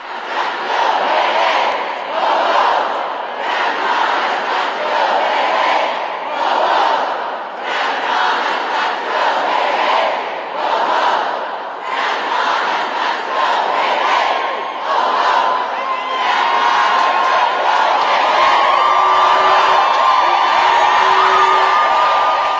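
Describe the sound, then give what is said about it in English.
Hundreds of mostly women chant in protest against Kavanaugh inside the Hart Senate building in Washington, D.C., their loud voices rising and falling in rhythmic shouted bursts that continue without a break. “Those were the sounds of hundreds of mostly women taking over the Hart Senate building on Thursday in Washington, D.C. in protest of Kavanaugh.”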